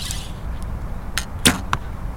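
An arrow is shot from a bow at an archery range, heard as a few sharp, brief cracks, the loudest near the middle, over a low, steady rumble.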